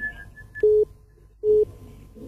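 Telephone busy tone on a call-in line after the caller disconnected: two short, identical beeps at an even pitch, spaced apart over faint line hiss.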